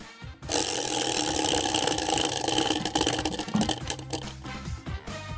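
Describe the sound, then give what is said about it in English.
Prize wheel spun in a party game, its pointer clattering in rapid, dense ticks that grow sparser and more uneven toward the end, heard alone without talk. “Spin the wheel and tell us what it says.”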